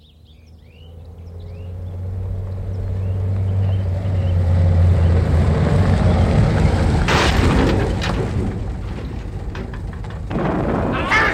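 A radio-drama effect of a new car plunging into a gorge: a low engine rumble swells into a sustained roaring wash, broken later by a couple of harsh, crashing bursts before it settles to a rumbling hiss.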